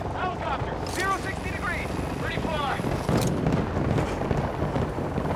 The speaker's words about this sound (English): Oh, I got chopper.